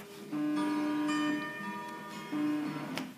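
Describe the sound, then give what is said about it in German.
An alarm clock going off: a faint, steady electronic tone sounds in two sustained stretches separated by a brief dip, with no talking over it. “Ihr wisst, das ist mein Wecker. Den habe ich jeden Tag um 18.30 Uhr.”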